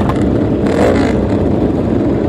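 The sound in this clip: A 500 Honda racing motorcycle roars on a road race course. The engine note is loud and continuous, with a brief surge in intensity early on and no voices over it.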